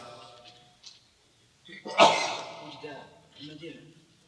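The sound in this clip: A single sharp sneeze bursts out midway, loud and breathy against a quiet background, with soft speech heard before and after it.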